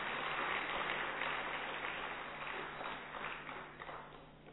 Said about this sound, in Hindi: तो हम एक बार जोरदार करतल ध्वनि से दीदी जी का स्वागत करते हैं।